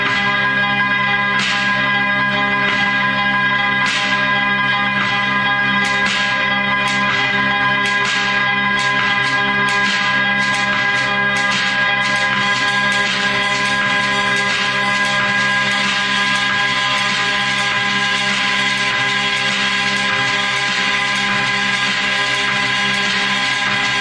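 Orbital periods are turned into musical tones. Sustained harmonic drones layer over one another while many bright, bell-like strikes fall in an uneven rhythm. The sound stays loud and dense throughout, with no voices.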